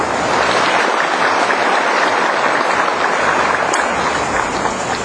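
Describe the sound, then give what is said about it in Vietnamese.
Applause from a church audience during a feast-day Mass for Saint Anthony: dense, steady clapping that holds at an even, loud level for the whole stretch with no break. “Và chúng ta xin cầu chúc nhau cũng như cầu chúc Thánh An Tông bằng một tràng pháo tay.”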